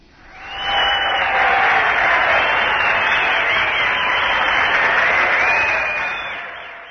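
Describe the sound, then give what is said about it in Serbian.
Audience applause at a live event with a youth centre team: a broad, even roar of clapping that swells in quickly, holds steady for several seconds, then tapers off toward the end. “Ovo je aplauz i za ekipu koja će se sa nama družiti u tišini.”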